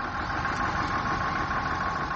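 A bus engine idling, a steady mid-pitched mechanical drone with a faint rapid knocking texture, continuous and unchanging throughout.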